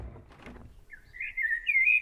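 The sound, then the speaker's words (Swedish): Blackbird song: a short run of bright whistled phrases in the second half, rising to a clear ringing note at the end, after a brief stretch of low rumbling noise. “Jo, visst sa koltrasten att Fanny skulle följa med.”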